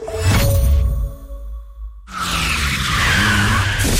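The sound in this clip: Car tyres with badly worn tread skid in a loud, rushing screech, fade briefly near the midpoint, then a broad, roaring burst of noise surges back and holds to the end.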